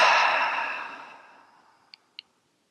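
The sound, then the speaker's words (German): A long, deep breath out through the mouth after breathing in through the nose starts loud and airy and fades away over nearly two seconds, followed by two short, faint clicks. “Atme einmal tief über die Nase, nochmal in dein Herz ein und durch den Mund aus.”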